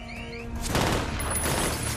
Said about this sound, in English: Officers shoot from behind their cruisers.